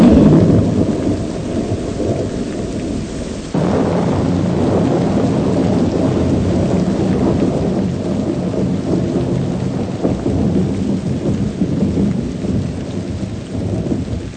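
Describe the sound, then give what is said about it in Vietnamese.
Rain pattering on a thatched leaf roof at night: a steady, dense hiss of drops with a low rumble underneath, growing a little louder after the first few seconds and continuing to the end. “Một đêm tối, tôi đang trùm mền ngon giấc nằm bên đứa em kế 6 tuổi khi ngoài trời mưa rơi tí tách trên mái lá.”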